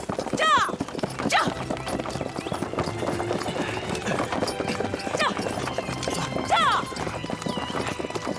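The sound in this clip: Horses gallop with a rapid, steady clip-clop of hooves. A few high whinnies rise over the beat, with shouting voices mixed in.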